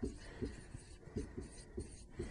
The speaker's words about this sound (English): So for that reason, I'm going to erase this because it's not part of the problem at hand.